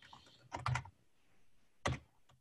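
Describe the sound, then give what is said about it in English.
Typing on a computer keyboard: a quick cluster of several faint keystrokes, a pause, then one more tap. “I think you could type up injury report roundup NFL. Yeah, let's type roundup”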